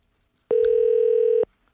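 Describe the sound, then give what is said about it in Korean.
A telephone tone sounds as a call is placed to a caller: one loud, steady, unbroken beep lasting about a second, alone with no talk. “전화 드려보겠습니다. 전화를 받아주실지. 네. 자, 전화 갑니다.”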